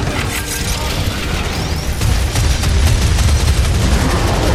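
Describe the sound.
Sustained gunfire as soldiers keep shooting in battle: many rapid, overlapping shots merge into a loud, dense roar that runs the whole time and grows slightly louder partway through.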